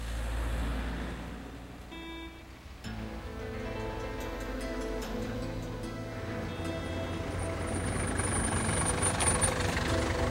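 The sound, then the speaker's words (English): A taxi engine rumbles low and steady as the car pulls into the forecourt of the Savoy Hotel, with a brief dip in level early on before the drone continues. “A taxi pulls into the forecourt of the Savoy, and a doorman opens the car door.”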